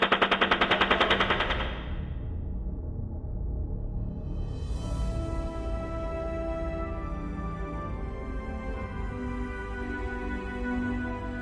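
Rapid machine-gun fire in First World War combat: a fast, loud burst of shots for about two seconds gives way to a continuous dense roar of gunfire.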